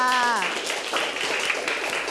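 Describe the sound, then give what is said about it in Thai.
Classroom applause for a classmate: many hands clap in a dense patter. A voice is heard briefly at the start, then the clapping continues at a steady level. “โอ้โหครบถ้วนเยี่ยมยอดมากครับปรบมือให้เพื่อนค่ะ”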